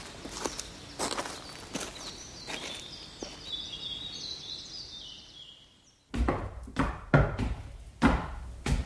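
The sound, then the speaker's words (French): Footsteps climbing stairs to the first floor, right wing, of a castle. A series of firm, dull steps with a pause in the middle, then louder, quicker steps. “Allez, tenez, venez, nous allons grimper au premier étage, aile droite. C'est là que j'habite.”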